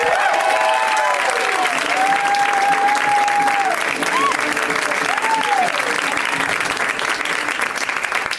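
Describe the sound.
A comedy club audience applauds a comedian being introduced, a steady, dense clapping that holds at full strength for the whole clip.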